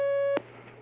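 A telephone line tone signals an incoming call on a phone-in question line: a steady, clear beep holds briefly, then cuts off with a sharp click, leaving faint line hiss.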